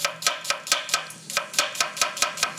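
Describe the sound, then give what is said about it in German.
Knife chopping an onion finely on a cutting board, heard as a quick, steady series of crisp taps with no voices. “Oh, ich mag ja dieses Geräusch, ne, wenn du schneidest.”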